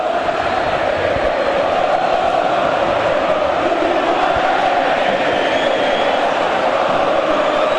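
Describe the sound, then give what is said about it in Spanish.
Massed chanting from more than 20,000 Boca supporters packed into a stadium in Rosario, a dense, loud, unbroken roar of singing voices that holds steady throughout. “Quiero que escuches al público de Boca, que son más de 20.000 y están en Rosario. Escúchalo.”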